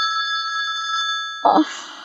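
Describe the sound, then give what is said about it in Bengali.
A telephone bell rings steadily with a bright, sustained tone, then stops and gives way to a brief burst of rustling noise. “ফোনটা ধরব না? থাক, ও আপনিই থেমে যাবে।”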